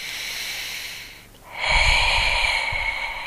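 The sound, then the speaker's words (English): Breathing close to the microphone: a quiet breath fades into a brief lull, then a louder, rough, airy breath with a low snorting rumble swells up and continues to the end. “You can hear every breath, every single breath.”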